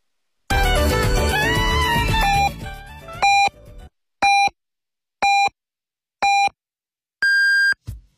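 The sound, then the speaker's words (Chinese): Hourly time-signal beeps on a Beijing radio station, 2018: after fading music, a series of short, evenly spaced pips is followed by a longer, higher final tone. “北京城市广播1073，请您准确对时。现在是北京时间6点整。”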